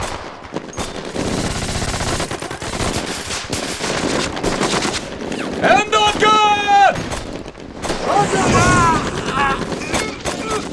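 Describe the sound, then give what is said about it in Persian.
Gunfire during a combat scene: many sharp shots and rapid machine-gun bursts throughout, mixed with other battle noise and shouting voices. “به شلیک ادامه بدید.”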